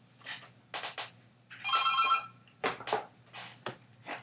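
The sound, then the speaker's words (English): A telephone ringing with an incoming call: one bright, trilling electronic ring lasting about a second, set between several short bursts of other sound. “I have no idea who is calling here, so... We already have a caller.”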